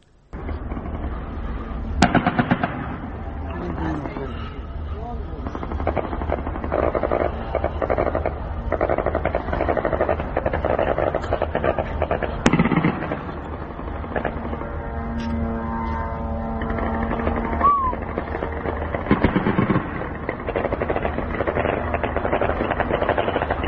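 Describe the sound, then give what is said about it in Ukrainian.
Rumbling blasts and engine drone from a Shahed drone attack on southern Ukrainian ports, filmed from Romania. A dense, continuous roar is broken by a couple of sharp bangs, with a steady whining tone partway through. “видео, которое сегодня вот снимали, я так понимаю, жители Румынии, румыны, атаки очередной уже ставшей привычной на южные порты Украины шахедами”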